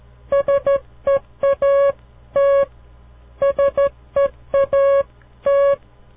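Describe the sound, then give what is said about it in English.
Morse code tones spelling the word seat: steady, pitched beeps in short and long bursts sound out the four letters, and the whole sequence plays twice with a pause between. “That was the word seat, S-E-A-T.”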